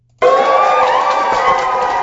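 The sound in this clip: A crowd of dozens of parents and young preschool students cheers for a preschool teacher being named Teacher of the Year. The cheering bursts in suddenly and stays loud and steady to the end.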